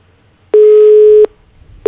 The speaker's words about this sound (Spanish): infortunadamente tenemos problemas técnicos en la llamada.